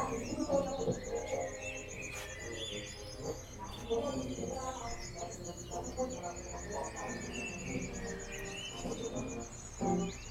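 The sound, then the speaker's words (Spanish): Crickets chirping in the morning give a faint, continuous high pulsing trill, with scattered bird chirps and tweets rising above it. “Los últimos grillos también cantan por la mañana.”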